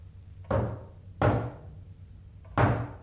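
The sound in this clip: Three heavy knocks on a door, each a sharp, booming thud with a short decaying tail. The knocks come at uneven gaps, with a slightly longer pause before the last.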